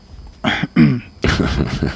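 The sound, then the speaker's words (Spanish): Rough throat clearing comes in a few harsh, gravelly bursts that build to a longer final rasp. It is moderately loud and stands alone without speech. “¿Esa carraspera ha sido por algo?”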